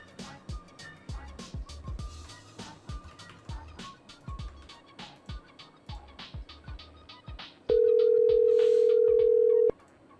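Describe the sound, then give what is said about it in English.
A steady electronic telephone tone sounds for about two seconds on a call to a house phone, coming in abruptly after a stretch of clattering background noise. “I'm gonna start calling your house phone now.”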